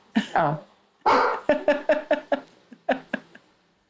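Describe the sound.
A dog barks in a rapid series of many sharp, loud barks, a couple of yelps first, then a quick run of evenly spaced barks that tails off.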